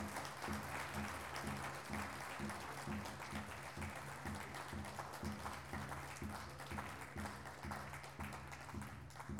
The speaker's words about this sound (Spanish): Aplaudamos, a ver, así ya viene.